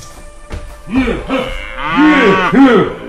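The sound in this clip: Fattened calves moo loudly in a series of drawn-out, low, bellowing calls that come one after another with brief gaps, the later moos fuller and louder, with no voices.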